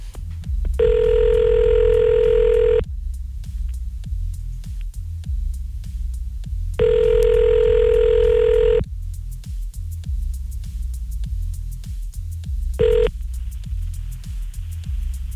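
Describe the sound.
Ringback tone of an outgoing phone call: two long, steady electronic tones separated by pauses, then a third brief tone cut short, all over a constant low background hum.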